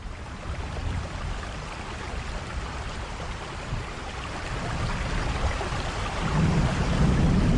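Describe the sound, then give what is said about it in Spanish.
Heavy rain pouring down: a dense, steady hiss of falling water that swells slightly louder toward the end, with no voices. “Vaya jarra de agua que está cayendo.”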